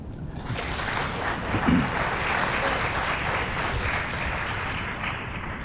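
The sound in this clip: Audience applause welcomes an author at a book reading event, heard as a dense, steady wash of clapping at an even level throughout.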